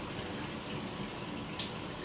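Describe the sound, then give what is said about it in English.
Running water from a tap soaks hair during a shampoo wash, making a steady, even, hissing rush with no breaks and no voices. “Let's get all your hair wet for me.”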